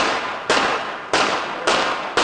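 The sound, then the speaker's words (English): Gunshots fired at a prime minister as he greeted passers-by behind a metal barrier. Several loud, sharp bangs come roughly half a second apart, and each one trails into a long, noisy decay. “you'll hear some gunshots in about 10 seconds. As Slovakia's Prime Minister Robert Fico greeted passers-by behind a metal barrier in mid-May, several shots suddenly rang out.”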